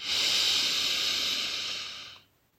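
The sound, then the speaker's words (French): A long, deep breath drawn in during a nighttime meditation: a steady, airy hiss that holds for about two seconds, then quickly tapers into silence. “Imagine une belle forme de cœur en prenant une grande inspiration.”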